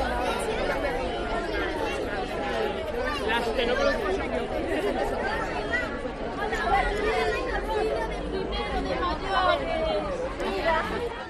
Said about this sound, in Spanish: Este curso la incorporación es al mismo tiempo en colegios e institutos. Adiós a las vacaciones y hola a este sonido.